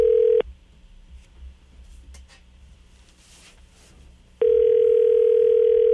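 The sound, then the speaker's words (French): Ringback tone on an outgoing call to a mobile number in France: a steady low tone ends just after the start, then about four seconds of faint line noise, then the tone returns for another ring and continues to the end. “C'est à voir si le numéro de cellulaire est toujours bon. Oh, OK, ça sonne.”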